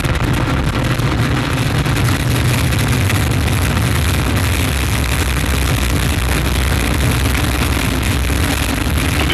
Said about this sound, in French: unité, top, allumage Vulcain. Allumage confirmé. Top, allumage EAP, décollage.